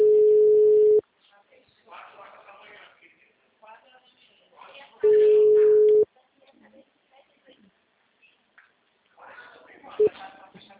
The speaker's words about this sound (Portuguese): Alô? Alô, a ligação caiu